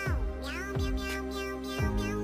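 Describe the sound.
A cat meows a few times in short, whiny calls, over a steady tonal hum.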